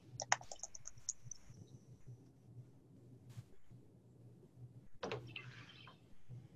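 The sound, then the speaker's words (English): Faint typing on a computer keyboard as an email is entered: a quick cluster of light clicks at the start, then a low steady hum, and a sharper burst of clicks later on. “I'm just going to go ahead and type my email into the chat box as well”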